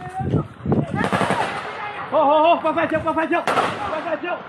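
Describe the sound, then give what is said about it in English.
Gunfire as resistance forces shoot up an army convoy near the border with Thailand: loud, rapid bursts of automatic fire, with voices shouting in between the shots. “Recent footage of resistance forces shooting up an army convoy near the border with Thailand.”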